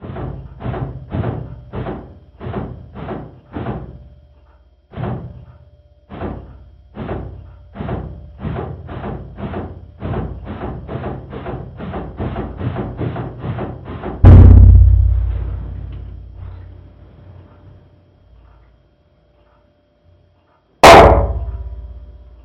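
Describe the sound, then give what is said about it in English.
Orion spacecraft thrusters firing in a long run of many short, evenly spaced bursts, then a heavy splashdown roar that slowly fades, and finally one sharp loud crack as the parachute risers are cut. “So that's only a couple seconds here, so we'll go through the jets firing and the splashdown all the way to cutting those risers.”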